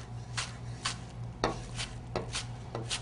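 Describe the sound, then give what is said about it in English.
Knife mincing chives for gazpacho: several sharp, irregular chopping taps, fairly faint, over a low steady hum. “We're going to take some of these chives. Probably only need half of these. And we're going to mince them up as well.”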